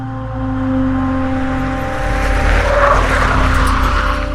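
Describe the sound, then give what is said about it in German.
A vehicle speeds past with an engine hum that swells into a louder roar, mixed with rushing tire noise. The sound builds toward the end, and no one speaks. “Bevor ich die Fahrertür meines Jeeps öffnen konnte, warf mich der plötzliche Luftzug eines vorbeirasenden Fahrzeugs dagegen.”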